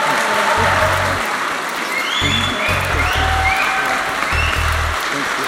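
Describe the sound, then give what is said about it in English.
A Manchester audience gives John Irving a loud, steady round of applause. Several bright whistles rise above the continuous clapping at scattered moments. “And I hope now that you will give us that Manchester round of applause and whoops and whistles and whatever else you fancy for John Irving.”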